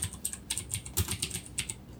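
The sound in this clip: Typing a search on a computer keyboard: many quick, light key clicks in an uneven rhythm, some struck in fast runs, with no voices over them.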